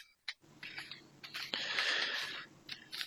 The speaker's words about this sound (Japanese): そのカードを今私のテーブルの上でかき混ぜています。